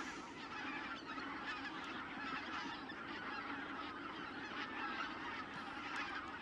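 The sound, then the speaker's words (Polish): Barnacle geese honking on the water, several birds calling in a steady, dense stream of faint honks without any talk. “Bernikla białolica mi wpłynęła w kadr. To jest rzadki ptaszek.”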